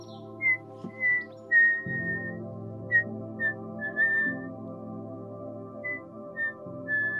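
A person whistles many short, light notes at an easy pace over a low steady drone, with no talk.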